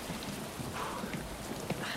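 Pouring rain at night outside a local hospital: a dense, unbroken hiss of falling water with scattered drop impacts, steady and fairly quiet, with no voices.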